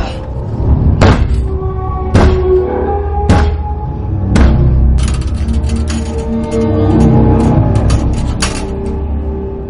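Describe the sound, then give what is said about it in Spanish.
Heavy banging on a door with a weighty object in a thriller film: repeated loud, sharp blows at a fairly steady rhythm, over a low sustained rumble. “golpea la puerta con algo pesado.”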